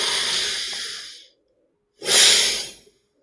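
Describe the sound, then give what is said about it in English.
A person breathes during a breathing exercise, taking two long, airy, hissing breaths separated by a moment of silence. The second breath is shorter and fuller. No talking. “and now exhale. And now repeat this.”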